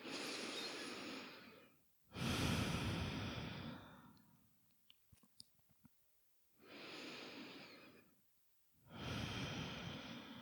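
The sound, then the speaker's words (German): Slow, quiet breathing in and out during a seated relaxation exercise, exhaling through an open mouth: two full breath cycles, each a long airy inhale and a sighing exhale, with small soft clicks in the pause between. “Nimm ein paar Atemzüge ein und aus. Gerne auch nochmal durch den geöffneten Mund ausatmen.”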